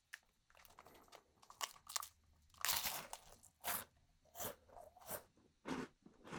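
Crisp crunching as a cookie is bitten into and chewed: many sharp, dry crunches in an uneven rhythm, fairly faint, with no talk.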